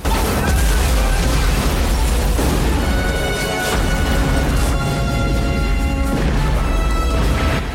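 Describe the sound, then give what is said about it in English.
Explosions destroy a building in a loud, continuous roar of booms and crashing debris that stays heavy and dense from start to finish. “As one explosion after another rocks and destroys the building, Ray and May”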